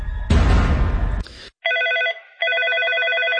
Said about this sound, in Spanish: Tenemos una llamada al aire. ¿Con quién tengo gusto en la línea telefónica?